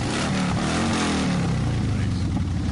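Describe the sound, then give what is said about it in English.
A motorcycle engine revving during a street motorcycle ride event, a loud, dense rumble with wavering engine tones throughout and voices mixed into the noise. “we want to get some Dykes on bikes sound. Someone want to rev it for us?”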